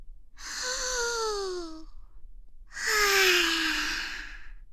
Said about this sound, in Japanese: 深呼吸からね。大きく吸ってから、ゆっくり吐き出す。